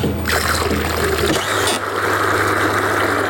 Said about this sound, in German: Dort, wo die Maschine im Sekundentakt das Milchpulver mit dem Wasser vermischt. Immer dann, wenn ein Kälbli trinken